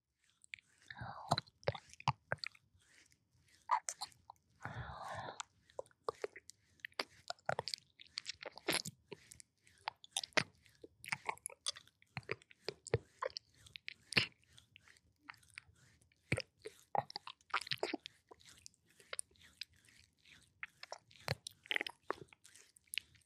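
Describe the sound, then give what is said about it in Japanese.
Wet licking and mouth sounds of ear-licking ASMR: many small smacks, clicks and squishy strokes in an irregular, close stream, with faint whispery breath between them. “もちろんお耳もこうやって舐めてあげるね。”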